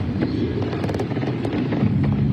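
Gunfire at a victory parade sounds as a rapid burst of many sharp pops, clustered closely in the first half and more scattered afterward, over a steady wash of crowd noise.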